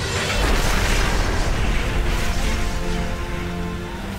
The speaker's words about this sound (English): The whole world seemed to explode. It was like a mini atom bomb.